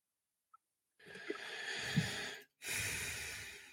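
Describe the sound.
A person takes two loud, gratuitous breaths in a row, each a long rushing, snorting draw of air separated by a brief gap, with a tiny click before the first.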